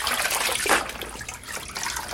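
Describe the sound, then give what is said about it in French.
Water is poured to rinse a person standing in a shabby tiled room. A faint, steady splashing trickle runs throughout with no voices. “Mets-toi debout, je vais te rincer.”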